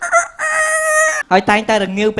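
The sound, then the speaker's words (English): A voice imitating two roosters crowing before dawn: a long, high, sustained crow, then a lower, choppy run of several short voiced syllables, all loud and with no other sound around it. “at 4 a.m. right next to my bedroom, there is two roosters. And they go”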